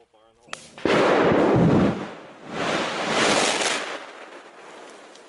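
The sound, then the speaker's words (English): Detonation cord setting off explosives bunkers in a controlled burn: a sharp crack opens a loud, roaring blast that fades, then a second long rumbling swell builds and trails off. “If you look really close, you can see the det cord on the ground go. Fire in the hole.”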